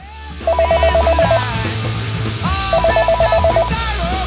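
Telephone ringback on an outgoing call, heard as two bursts of rapid, warbling ring tones separated by a pause, over a steady background.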